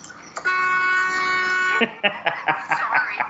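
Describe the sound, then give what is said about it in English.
A car horn sounds in a film scene as one sustained, steady blare lasting over a second, followed by voices talking. “Sorry. I didn't mean to scare you. Yeah, you did. Why else would you honk your horn?”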